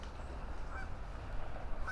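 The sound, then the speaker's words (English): Geese honking: faint, brief calls rising over steady low background noise. “It looks like it's another all goose and duck day here at Heron Haven.”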